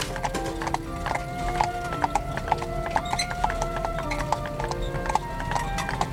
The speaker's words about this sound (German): eine Kutsche.